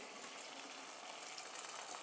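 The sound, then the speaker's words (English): Boiling water poured onto pasta, a faint, steady hissing gush that runs unbroken throughout. “Pouring the boiling water onto the pasta.”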